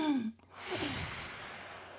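A slow, deep breath demonstrated while coaching a bedridden patient: a brief voiced sigh gives way to a long, soft, breathy exhale that trails off gradually, with no talk.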